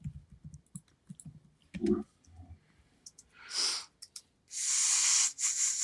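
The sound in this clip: Typing on a computer keyboard to look something up online: scattered light clicks and taps, followed by longer, louder hissing noise bursts.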